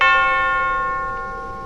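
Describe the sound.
A single strike of a statue bell hit with a silver hammer in a video game's village square, ringing out as a clear, bright metallic tone that decays slowly with no other sound.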